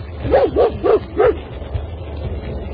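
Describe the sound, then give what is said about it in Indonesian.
A black dog barks outside a house: four quick, mid-pitched barks in a short burst, then steady low background noise with no further barking. “seekor anjing hitam sedang menyalak di luar rumahku.”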